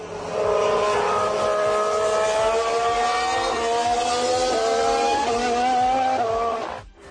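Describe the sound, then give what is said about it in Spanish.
Racing engines, a Ferrari and a Honda mixed together, give a loud, high, whining roar; the pitch climbs and then drops sharply several times, as with gear shifts, before the sound cuts off at the end. “Honda. Pero se mezcla un poco. O hay un Honda detrás. No, es que hay dos. Es un Ferrari.”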